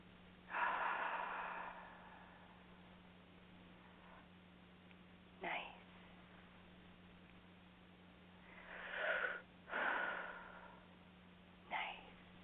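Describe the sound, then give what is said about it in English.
Slow, deep human breathing: several long, airy breaths separated by quiet pauses, each swelling and fading softly over a faint, steady low hum. “if you stop and take some time to take those nice, big, deep breaths, it will help you.”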